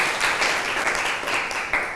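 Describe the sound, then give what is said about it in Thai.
Applause from students clapping for themselves in a classroom, a dense, steady patter of many hands that holds for about two seconds with no talk. “ปรบมือให้ตัวเองหน่อยค่ะ”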